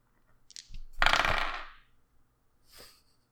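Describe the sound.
A twenty-sided die rolled for a save in a tabletop role-playing game: a few light clicks, then a quick clattering tumble that fades, followed by one small final tap.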